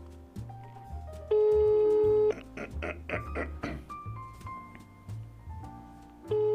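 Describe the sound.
Telephone ringing on an outgoing prank call, sounding as steady electronic tones with a louder, sustained tone in the middle and a brief cluster of pulsing beeps.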